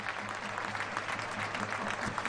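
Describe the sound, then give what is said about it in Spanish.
A stadium crowd at a football match applauding, a steady blur of many hands clapping with a low hum beneath, holding at an even level through a brief stretch. “Pues ahí está el aplauso también para Enol, el delantero asturiano.”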